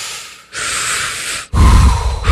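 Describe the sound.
Two long, loud, sharp inhales through the nose, one after the other, with a brief pause between them. They have a hissing, snorting breath quality.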